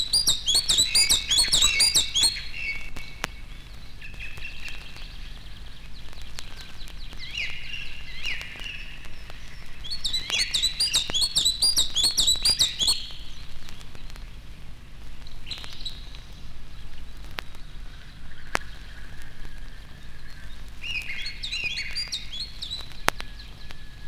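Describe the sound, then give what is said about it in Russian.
A Siberian chiffchaff, close relative of the common chiffchaff, sings a few short, high-pitched twittering phrases separated by long pauses over a steady background hiss. “грустно поет печальная пеночка, близкая родственница европейской пеночки теньковки. Пение не мешает ей усердно отыскивать насекомых.”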